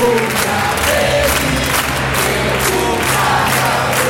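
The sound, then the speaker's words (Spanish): A crowd applauds and cheers at an anniversary celebration for a human rights group. The clapping and shouting are loud and dense, forming a steady unbroken roar throughout. “Y llega el aplauso de todos y todas.”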